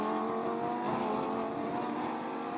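Engines of Lamborghini Super Trofeo race cars at Indianapolis, a loud, steady droning roar with a strong harmonic whine that holds an even pitch throughout, with no voices over it.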